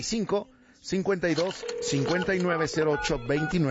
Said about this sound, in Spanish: ¿Qué te parece si le marcamos entonces, mi querido Luisito? Órale, vamos entonces, manos a la obra.